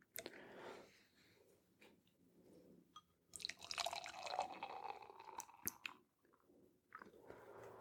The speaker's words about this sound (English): It smells delicious. We can hear the sizzle.